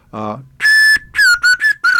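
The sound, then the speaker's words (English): High notes on a concert slide whistle of the kind used in symphony orchestras: a bright, sustained tone followed by several shorter notes, some gliding slightly down in pitch, loud and clear with no talk. “Your high notes are on this concert slide whistle, which incidentally you'll find with most every symphony in the country,”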